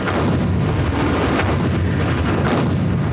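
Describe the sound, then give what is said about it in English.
A massive British and French artillery bombardment of German frontline defences: a loud, continuous roar of overlapping blasts and rumbling booms, dense and unbroken, with no clear gaps between shells. “the British and French began a massive week-long artillery bombardment of German frontline defences”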